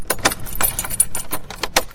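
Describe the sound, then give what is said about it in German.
An old key locks a door at a former apartment in a railway station building, making a quick run of sharp metallic clicks and jangling rattles. Several bright strikes stand out, with nothing else heard. “Abschließen mit einem Schlüssel, der auch nach 60 Jahren zu unserer früheren Wohnung im Bahnhof immer noch der gleiche Schlüssel ist, mit dem ich als Kind diese Tür auf und zugeschlossen habe.”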